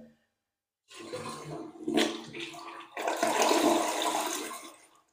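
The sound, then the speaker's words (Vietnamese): A toilet flushing after its flush button is pressed. A brief pause gives way to rushing water that surges, then builds into a loud, strong swirling roar before cutting off. “bắt đầu em sẽ bấm nút xả này các bác xem nhá”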